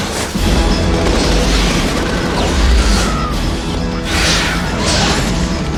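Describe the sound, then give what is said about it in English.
A bomb explosion in a military sci-fi film trailer, with soldiers under attack: a loud, continuous roaring blast with crashing and rumbling that fills the whole clip. “Bomb! Incoming!”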